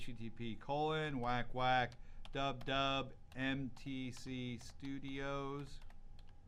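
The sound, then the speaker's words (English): Typing on a computer keyboard while entering a web address, a few scattered keystroke clicks under a steady tonal sound. “So I'm just going to start typing a URL,”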